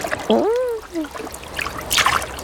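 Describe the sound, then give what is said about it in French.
Light splashing of seawater as an animal dips its paws in at the sea's edge: soft trickles and splashes with a brighter splash near the end, after a voice's drawn-out exclamation. “Il met une patte dans l'eau. Ouh ! Puis l'autre.”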